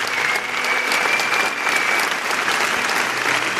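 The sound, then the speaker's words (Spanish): A congress audience gives loud, continuous applause, a thick and steady wash of clapping hands that holds level throughout. “Y os pido un aplauso para él por todo el trabajo que hace”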